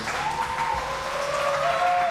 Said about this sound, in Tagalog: Muli, bigyan natin ng masigrabo palakpakan si Nanay Rafael, convener ng Para Commuters